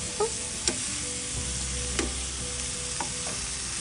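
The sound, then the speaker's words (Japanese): Marshmallows fry in a pan with a soft, steady sizzle. A few light taps and clicks sound over the faint hiss, and no one speaks. “マシュマロフライパンで焼かない方が良かったかな”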